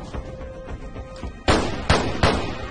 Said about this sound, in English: Jacob fires back. Bullets fly between them.